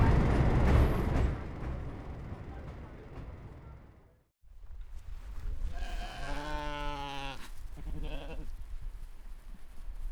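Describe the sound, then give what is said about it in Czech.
A flock of sheep bleating in a field above a rural railway station. After a stretch of low rumbling noise and a brief gap, one long, wavering, nasal bleat sounds clearly, followed by a shorter second bleat. “Vítá mě stádo ovcí.”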